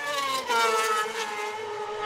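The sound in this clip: Racing sidecar outfit at the Isle of Man TT, heading out onto its final lap. A loud, steady, high-pitched engine whine with strong harmonics that sag slightly in pitch as it passes.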